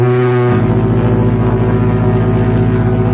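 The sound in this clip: A horn blown in one loud, sustained blast, a steady deep tone that holds unchanged for about three seconds.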